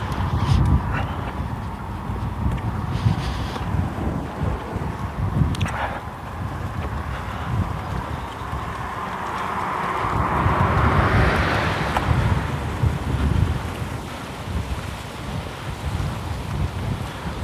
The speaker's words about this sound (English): Wind is cutting. It's funneling right down the street because it's coming up from the south, and it's funneling right down this cul-de-sac, this gully between fences.